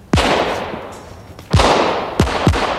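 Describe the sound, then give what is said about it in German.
Four sharp gunshots fired at a car, loud cracks with short decaying tails; the first shot stands alone, then three more follow in quicker succession. “Los, schieß auf alle Fälle mal nach seinem Wagen, damit er beschäftigt ist.”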